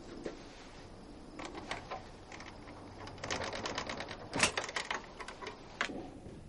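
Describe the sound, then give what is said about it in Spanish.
A lockpick worked in a theatre door lock at night, making faint, irregular metallic clicks and rattles in several short bursts, with a sharper clack near the middle and quieter ticking between. “Se agacha ante la puerta y manipula la cerradura con una ganzúa.”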